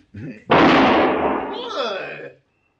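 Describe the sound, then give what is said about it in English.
A single sharp gunshot that shoots a pistol out of a man's hand in a 1960 Western television drama, a sudden loud blast with a lingering, slowly fading tail, preceded briefly by a voice. “He's good with the gun. See? Very good, senor. You just shot the gun from my hand.”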